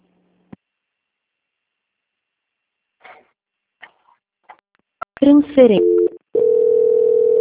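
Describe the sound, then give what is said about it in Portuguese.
Telephone transfer tones on a bank customer-service call being passed to quality control: a few faint clicks, then a short burst of shifting, warbling electronic tones, followed by a steady, continuous single-pitched tone that holds to the end. “eu vou transferir agora”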